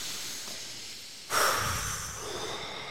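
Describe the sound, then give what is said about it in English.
A deep breath drawn in and let out during a calming self-comfort exercise: one breathy rush swells suddenly, then slowly fades. No talk over it. “And we're mm-hmm. going to take a deep breath.”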